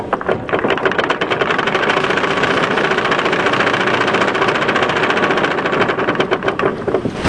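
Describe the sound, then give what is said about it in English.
A raffle drum spins with a fast, steady mechanical rattle that stays loud and unbroken for the whole clip. “Better spin the raffle drum again.”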